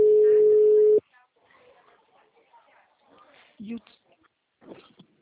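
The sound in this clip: A telephone tone after a dropped call: a single steady, mid-pitched beep lasting about a second that cuts off abruptly, followed by faint talk and small noises.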